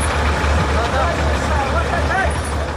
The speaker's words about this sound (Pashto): دا د روزګان او کندهار د لوی لارې پر سر غټ موټرونه دي چې د کوچني موټرو سره مرسته کوي ترڅو له لوړو او ژورو یې تیر کړي او له خټو یې راوځي.